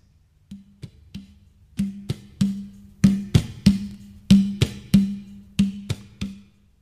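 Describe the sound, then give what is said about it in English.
A duf frame drum, a large tambourine-style drum without cymbals, is struck in a loose rhythm: many resonant, mid-pitched booming hits mixed with sharp rim slaps, starting soft and growing louder, played alone with no voices. “I started with the duf. It is also a Mazhar, but without the cymbals. It sounds like this.”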